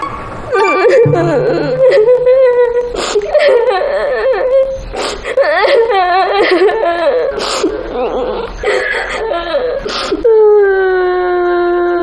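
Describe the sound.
A child crying over a group haircut, a long, loud stretch of quavering, high-pitched sobs with catches and breaks, ending in a sustained wail.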